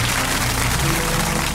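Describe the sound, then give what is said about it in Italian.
Crowd applause at a maker fair event: a dense, loud, continuous wash of clapping that holds steady throughout with no pauses. “Applauso.”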